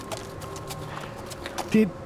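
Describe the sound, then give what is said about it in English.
Hooves of a riderless horse trotting slowly nearby in the dark, a steady run of soft, regular clops that stay faint throughout. “After a moment, hooves can be heard nearby. And suddenly, out of the dark, Hamilton trots slowly towards them.”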